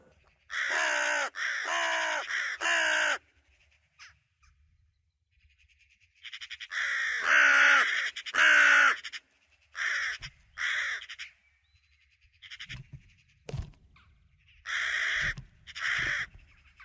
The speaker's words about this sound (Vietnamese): Trong rừng sâu, một con chim lớn không rõ tên đang kêu rên đến rợn người.